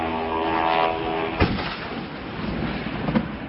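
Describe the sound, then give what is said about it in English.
A refinery explosion rings out as a drone strike hits an oil refinery in the southeast of a city, heard as a dull, muffled rumble broken by a sharp boom near the middle and a smaller burst near the end. “that was the sound of an oil refinery in the southeast of the city being hit”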